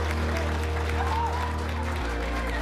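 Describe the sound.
Steady applause from a small group celebrating a marriage proposal, continuing evenly through the whole clip with a faint low hum beneath the clapping.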